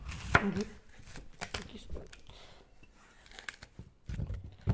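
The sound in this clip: A knife chopping courgettes on a cutting board, giving a few sharp, irregular crunchy strikes with quieter cutting sounds between them. Faint voices are heard intermittently.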